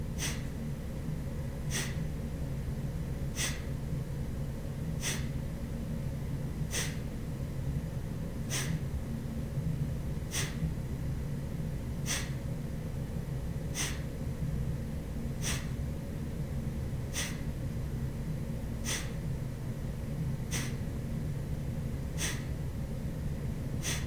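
Sharp, forceful breaths repeat at a steady, even pace during a breathing exercise of quick snapping exhales. Each is a brief, faint puff over a constant low background hum.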